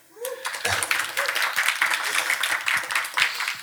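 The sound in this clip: Applause greets the host of a Danish show about board games: a dense, steady patter of many hands clapping that starts abruptly and carries on throughout.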